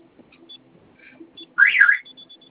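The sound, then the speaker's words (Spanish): A security alarm system at a branch office sounds a short, loud warbling electronic tone burst, preceded and followed by faint, high, brief beeps against an otherwise quiet background. “Ahí me dice que está para ver zonas abiertas con acceso y está sonando como si fuera a alarmarse algo.”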